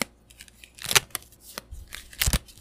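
Tarot cards are drawn from a deck: a few crisp, papery swishes and snaps, some faint and some sharper, spaced irregularly with near silence between them.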